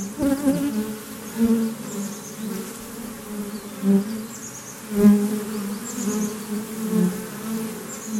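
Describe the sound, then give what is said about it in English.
Honeybees buzz at the entrance of a hive in a dense, continuous drone. The hum rises and falls in soft swells as individual bees pass close by. “This sound was recorded with an ambisonics mic. This captures the three-dimensionality of sound pretty faithfully. We stuck it right by the entrance of a hive.”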